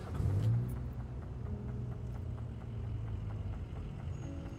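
A car driving off, as a sound effect for a time-travel vehicle: a low engine rumble swells at the start, then settles into a steady, fairly quiet drone that continues to the end.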